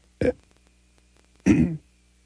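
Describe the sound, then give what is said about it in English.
Two short, rough coughs break an otherwise quiet moment. The first is brief and the second lasts a bit longer. “I don't know where that cough came from.”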